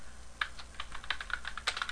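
Computer keyboard typing as an artist name is entered into a web search form, many quick, light, uneven keystrokes clicking alone.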